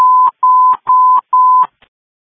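A telephone dialing tone sounds as four long, steady beeps at one mid pitch, each ending in a brief click, followed by one last faint tick.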